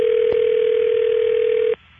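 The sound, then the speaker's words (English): A continuous telephone dial tone hums steadily while dialing out, with a faint click early on, then cuts off abruptly near the end, leaving only quiet line hiss. “All right, here, I'm dialing out.”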